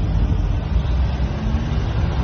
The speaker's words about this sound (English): And obviously you hear all the background stuff from the cars driving by.